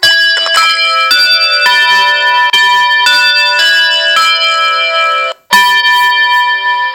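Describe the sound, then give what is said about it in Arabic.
A bell alarm tone from a talking-clock program rings out, bright and metallic, struck over and over in a quick sequence with sustained ringing between strikes and one short break before the last strikes. “بصراحة مزعج، ده صوت جرس.”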